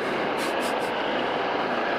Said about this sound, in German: Ein Hubschrauber, und zwar mutmaßlich ein startender solcher.